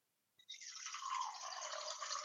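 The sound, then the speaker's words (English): Tap water pours into a jar, starting with a short splash and then a steady, faint, hissing flow that runs without a break to the end. “Okay, so I've got a jar and I'm going to fill that up with water.”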